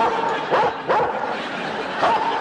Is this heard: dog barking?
yes